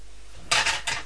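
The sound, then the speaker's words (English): A spoon scrapes at crumbs in three quick, scratchy strokes, the first two running close together and the third after a short pause. Moderately loud against a quiet background. “Well, I'm going to use a spoon again to scrape at the crumbs.”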